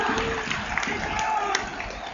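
Football crowd roaring at a WSV match as their side wins a corner kick, a continuous, full stadium din with small swells and scattered shouts.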